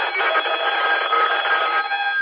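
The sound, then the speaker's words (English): A telephone rings over a mobile amateur radio transmission, sounding tinny and narrow. It trills continuously at an even level for more than two seconds. “my phone's ringing now”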